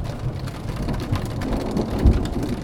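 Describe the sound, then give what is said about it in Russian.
Rain and thunder during a storm: a steady wash of falling rain over a low, rolling thunder rumble that swells louder near the end. “Часто град сопровождается дождем и грозой.”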